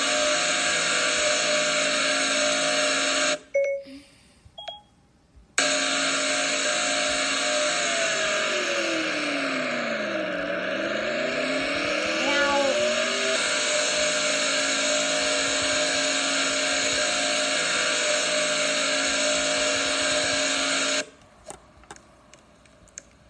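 Onboard a dirt race car in the Alabama Gang 250 NRRRA Dirt Series, a loud steady engine drone whose pitch dips briefly midway, with short cut-outs near the start and at the end.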